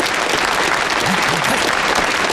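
An audience at a meeting applauds to welcome a railway guerrilla squad leader to the podium: a dense, unbroken wash of clapping that stays loud and even throughout.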